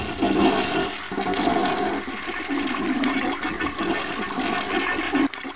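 A toilet flushes with a steady rush and gurgle of water that lasts several seconds and then cuts off abruptly.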